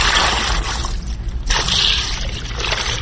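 Boiled curd being poured into a held cloth bag for making kurut, with water draining out: a continuous wet rush of splashing and sloshing liquid, steady and fairly loud from start to finish.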